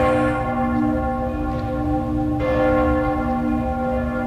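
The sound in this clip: The church bells of Cologne Cathedral ring with deep, sustained metallic tones and a rich hum of overtones. A fresh strike near the middle renews the loud, resonant ringing, which carries on unbroken to the end.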